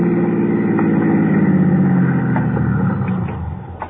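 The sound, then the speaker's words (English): A car engine runs with a steady low rumble as the vehicle pulls into a toll plaza, the sound fading slightly toward the end. “Pull into that toll plaza for a second, will you?”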